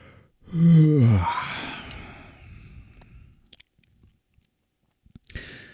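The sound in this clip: A tired person gives a long, voiced yawn. It rises into a loud, drawn-out moan, then trails off into a breathy exhale that fades to near silence, with a few faint clicks and a brief sound at the end.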